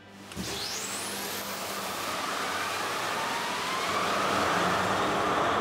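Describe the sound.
An emergency tug's two 20-cylinder main engines, 23,000 horsepower together, rev up in the engine room. A sharp rising whine opens over a loud, steady mechanical roar that swells gradually toward the end.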